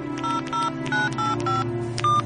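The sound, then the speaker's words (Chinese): Keypad tones as a telephone number is dialed on a mobile phone: six short, clear electronic beeps in a quick, slightly uneven rhythm over a low steady hum. “随后老范又拨通了杜飞的电话”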